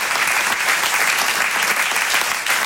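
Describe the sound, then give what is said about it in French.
Dense, continuous applause from a comedy club audience, loud and steady throughout, with hands clapping in an unbroken roar. “Comme d'habitude, je voudrais qu'on applaudisse très fort la régie son et lumière, la régie plateau, les équipes d'accueil.”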